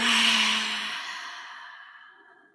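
A long, slow exhale after a deep breath in a guided breathing exercise: a breathy rush of air that starts strong and fades gradually over about two and a half seconds, with no voices.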